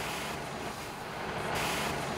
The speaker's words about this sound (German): Doch erst muss er ein dieselbetriebenes Waldbrandlöschfahrzeug fahren.